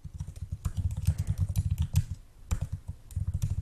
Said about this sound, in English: I can't find it now, so I'm just gonna type in